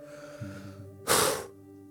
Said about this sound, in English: let's say everybody, let's take a correct collective breath.